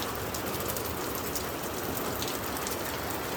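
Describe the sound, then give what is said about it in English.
Hard rain falls while the sun shines, a dense, steady hiss of drops pattering on surfaces that holds at an even, fairly loud level throughout with no voices. “So right now, it's raining. It's raining.”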